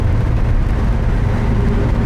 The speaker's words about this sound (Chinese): 踩到底吧，油门。 已经到底了。 再快点。 不行了，到底了。车都快散了。